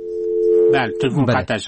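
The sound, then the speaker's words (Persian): Telephone tone after a call is disconnected: a single steady, even-pitched tone holds for under a second, then speech begins and continues to the end. “بله، تلفن قطع شد. دیگه تلفن نمیگیریم.”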